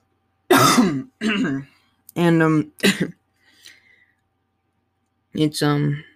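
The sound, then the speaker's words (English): A person clears their throat in a few harsh, voiced bursts, then pauses briefly before one more throat-clearing burst. No words are spoken. “Sorry, I have something in my throat.”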